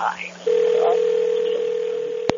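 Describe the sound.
A telephone ringback tone sounds during a call. Brief speech comes first, then a steady, continuous mid-pitched tone holds to the end, broken by a single sharp click.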